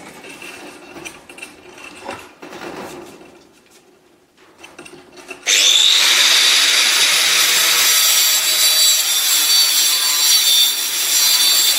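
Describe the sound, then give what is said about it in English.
An angle grinder cuts off a section of lath to make an electrode. Quieter scraping and rubbing comes first, then a sudden loud, harsh, high-pitched grinding roar that holds steady to the end. “I'm just going to do that by cutting another section of this lath off with an angle grinder.”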